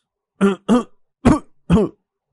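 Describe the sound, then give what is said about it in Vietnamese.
Violent coughing follows a single puff on a cigarette: four sharp, harsh coughs come in quick succession, each loud and rough with a brief rasping tail, with no talk. “chỉ mới hút một hơi, hắn đã phải ho sặc sụa.”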